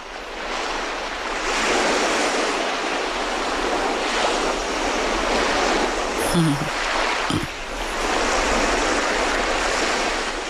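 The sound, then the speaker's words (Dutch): Ocean waves washing onto the shore, a loud continuous surf with slowly swelling and easing rushes of water, no voices heard. “We horen de zee. De zee, ja. De zee, de oceaan, golven.”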